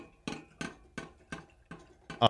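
Knocks imitating a mallet hammering a lobotomy instrument into the brain: a steady series of sharp, evenly spaced taps, each short and bright, with a slightly stronger, quicker double hit at the end.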